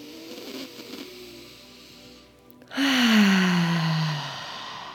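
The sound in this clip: A deep breathing exercise: a quiet stretch of faint breath, then a loud, voiced sigh as the air is let out through the mouth, its pitch falling steadily as the exhale fades.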